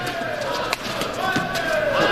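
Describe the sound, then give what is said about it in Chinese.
A badminton serve: the racket strikes the shuttlecock with one sharp, crisp hit, standing out against a steady bed of arena crowd noise. “梁伟铿发球，”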